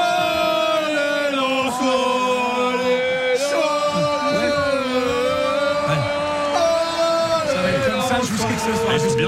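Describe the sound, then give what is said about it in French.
Lens football supporters in Paris chanting together, a loud, continuous mass of voices with sustained held notes throughout. “Et on a des supporters lensois qui sont déjà arrivés. Chaud voilà. Ils sont sur Paris, voilà.”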